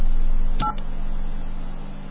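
A single short touch-tone keypad beep sounds as a letter is entered into a phone system's dial-by-name directory. It is brief and clear over a steady low electrical hum.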